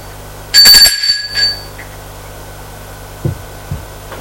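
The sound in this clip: A doorbell ringing: one loud, bright, metallic ring lasting about a second, followed by two soft thumps in otherwise quiet air.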